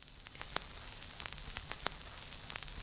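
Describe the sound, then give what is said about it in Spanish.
A vinyl record crackles as it plays out to the end: a faint, steady hiss scattered with small clicks and pops, two of them sharper and louder than the rest. “Voy a dejar el vinilo, ¿vale? Que llegue al final ya que... Clac, clac, clac, clac, clac, clac.”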